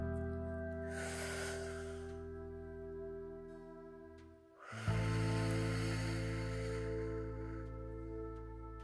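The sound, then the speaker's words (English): A slow, deep breath is pushed out as a long, airy hiss. A second long breath follows after a pause, both faint over a steady, sustained tonal drone. “Inhale. Push it out nice and slow.”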